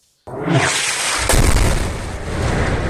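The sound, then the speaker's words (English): A heavy blast from the airstrike bombardment of Gaza bursts suddenly out of silence, followed by a second loud surge of deep booming rumble that stays dense and roaring to the end. “Day after day, Israel's fiery bombardment of Gaza continues”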